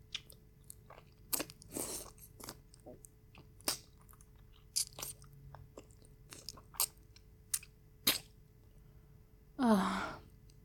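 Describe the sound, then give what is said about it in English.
Biting into and chewing a very sweet, juicy nectarine: scattered moist clicks and wet smacks at an irregular pace, ending in a louder breathy sigh. “This is the sweetest nectarine I have ever tasted.”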